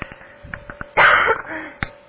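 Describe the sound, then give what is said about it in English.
Muffled throat clearing through a covered mouthpiece: one short, rough burst of about a quarter second, with a few faint clicks and breathy sounds around it. “first thing, I have to clear my throat. So okay. I'm going to cover the mouthpiece.”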